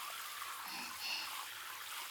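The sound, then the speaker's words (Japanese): Water poured to rinse someone's feet, a soft, steady trickling and splashing that runs evenly throughout with no voices. “足を流しますね。”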